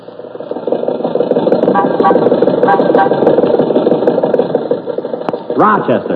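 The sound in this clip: A rough, sputtering car engine sound effect for an old Maxwell being driven, a loud, continuous chugging rattle that runs throughout, with a voice breaking in near the end.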